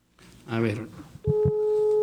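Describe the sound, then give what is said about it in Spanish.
A telephone line tone sounds as a call is dialed, a steady electronic tone starting after a short spoken phrase, with a couple of low thumps as it begins. “A ver, aquí estoy entrando con el maestro. Denme un segundo. A ver, aquí le estoy marcando al maestro.”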